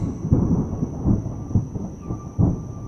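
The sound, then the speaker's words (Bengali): Thunder rumbles outside during a windy storm, a deep, continuous roll that swells into a few louder bursts. No voices. “বাইরে মেঘের গর্জন শোনা যাচ্ছে”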